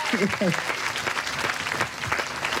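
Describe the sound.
Audience applause welcoming an Olympic athlete home at an event. A short burst of steady, even clapping plays, with a voice speaking over it at the start.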